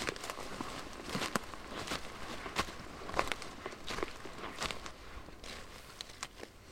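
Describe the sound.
Footsteps walk uphill through a forest toward young woodland: many faint, irregular steps crunch and crackle on ground litter, with no voices.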